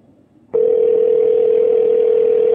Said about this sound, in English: But at least we've got ringing now.